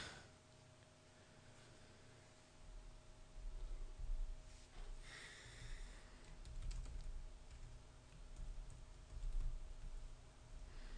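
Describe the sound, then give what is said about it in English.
Typing on a computer keyboard: faint, soft key clicks running continuously at an uneven pace over a low steady hum. “I've just typed "Hi Clinton" into the second line.”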